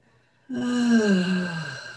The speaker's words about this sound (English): Breathe. Another breath.